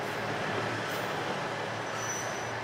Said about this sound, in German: Wir nehmen die Noto Railway ganz im Westen Japans.